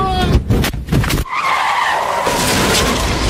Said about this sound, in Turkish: Arka lastiği patlayınca Tesla kontrolden çıkarak hurdaya döndü.